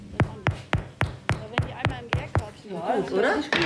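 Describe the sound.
Knuckles knock on freshly baked bread loaves just out of an oven: nine hollow, evenly spaced thuds in a steady rhythm, followed by voices beginning to talk.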